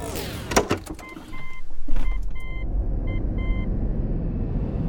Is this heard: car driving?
yes